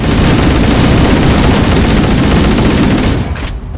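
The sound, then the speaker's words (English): Loud, dense automatic gunfire from a video game firefight along a hallway, a relentless crackling barrage that fills nearly the whole clip before thinning out near the end. “All run straight down the left side and shoot. Wow. Did you survive that explosion?”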